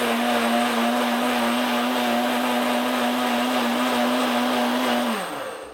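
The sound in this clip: A vacuum blender runs on high speed with a loud, steady motor whine held at one pitch, then the whine drops in pitch as the motor winds down at the very end. No voices are heard.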